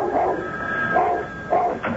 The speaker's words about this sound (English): Every time the phone rang, he barked and barked and barked till Joan answered it.